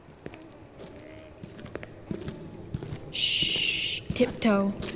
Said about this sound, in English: Just follow me, and we'll tiptoe quietly until we can determine what's inside. Here we go.